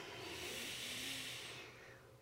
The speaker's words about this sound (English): Let's take a good deep breath with that. A theatrical breath.